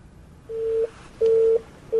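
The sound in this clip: A telephone call being placed: three steady, mid-pitched electronic tones, the first two about a third of a second each and the last cut short, separated by near-silence.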